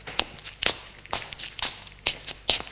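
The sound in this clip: Footsteps walking across a living room, a steady series of sharp, crisp treads at an even pace with quiet pauses between each step.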